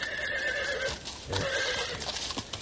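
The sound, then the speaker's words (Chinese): Horse hooves clip-clopping as a horse-drawn carriage comes up from behind, with a loud whinny running through the rhythmic hoofbeats. “后面一辆马车嘚嘚地赶上来，陈独秀回过头”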